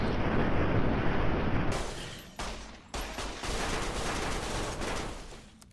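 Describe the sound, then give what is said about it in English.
A robot enemy's brain-zapping attack in a video game: a dense, harsh crackling burst like rapid gunfire that carries on for several seconds, broken by a few short dips partway through. “He's doing his robo brain zappy attack.”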